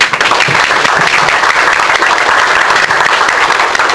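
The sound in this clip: Loud, sustained audience applause at the Dallas Philosophers Forum welcoming a guest speaker, a thick unbroken roar of many hands clapping evenly for the full four seconds, with no voices on top.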